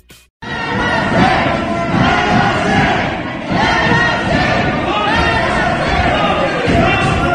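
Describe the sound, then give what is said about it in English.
Hundreds of protesters rally at Michigan's capital against stay-at-home and lockdown orders, many heavily armed. Their dense, loud roar of shouting voices starts abruptly after a short pause and stays steady throughout. “That is the sound of what it was like in the capital of Michigan yesterday, where hundreds of heavily armed people in some cases gathered to protest the stay-at-home orders and the lockdown situation.”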